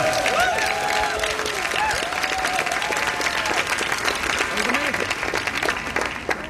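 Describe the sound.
An enthusiastic audience at a classical recital of Schubert songs bursts into loud applause and cheering. Dense, continuous clapping fills the whole stretch, with whoops and shouting voices rising above it before the clapping thins slightly at the end.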